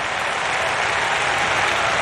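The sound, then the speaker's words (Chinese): Stadium crowd applause for Kipyegon at the Eugene Diamond League 1500 m, a dense, steady roar of many hands clapping at once, loud and unbroken throughout. “收获了全场的掌声。”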